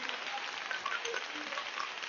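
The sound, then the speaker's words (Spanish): A church audience applauding during a Spanish-language service: faint, dense, even clapping with a crackling texture that holds steady for about two seconds. “Démosle un aplauso al Señor, hermana, hermano.”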